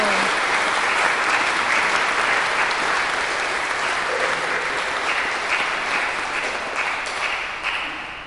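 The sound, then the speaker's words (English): Applause from a church audience honoring a 92-year-old member: dense, sustained clapping that stays steady and loud throughout and eases off slightly at the very end. “we clap for them”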